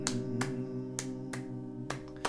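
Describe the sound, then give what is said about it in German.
Hand claps accompany a German folk song about driving out winter, with the arms held wide during the exercise. Six crisp, sharp claps fall in loose pairs over sustained tones. “Haben Sie die Arme auch schön weit vom Körper weg, dass das Klatschen nicht so beengt, sondern wirklich auch wie eine Präsentation wirken darf.”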